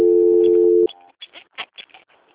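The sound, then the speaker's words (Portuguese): A steady telephone line tone plays during a call transfer. It holds level for just under a second, then cuts off abruptly, followed by a few faint, short scattered noises. “eu vou tentar transferir a ligação agora lá para a central para ver se eles atendem, tá?”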